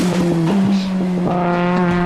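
A car engine drones loudly after dropping a gear to bring in the turbo. Its tone holds a steady, strong pitch.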